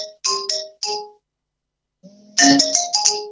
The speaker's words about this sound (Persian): ببخشید این تلفن.